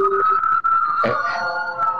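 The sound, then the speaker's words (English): An ambulance siren blares loud and steady, a sustained high-pitched tone with strong harmonics, briefly dipping once and overlapped midway by a short burst of noisy sound. “There's the ambulance to come and get her creepy father.”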